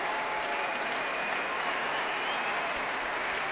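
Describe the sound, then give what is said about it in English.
Wild applause from a concert audience after a piece of chamber music: loud, dense, continuous clapping that holds steady throughout. “And here they come again. Well, you could hear the audience go wild, and I really think in that case it was totally justified.”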